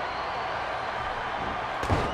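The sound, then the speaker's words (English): A heavy slam as a wrestler is thrown into the turnbuckle and hit with a short-arm clothesline during a wrestling match, heard as one brief thud near the end over a steady wash of crowd noise. “Throws Hakushi into the turnbuckle. Oh, and just tries to take his head off with that short arm clothesline out of the turnbuckle.”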